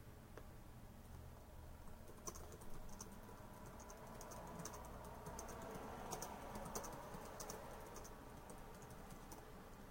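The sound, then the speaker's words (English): Typing on a computer keyboard: many quick, faint key clicks in an uneven, continuous patter, with a few slightly sharper taps. “if you're watching this, you just see me type”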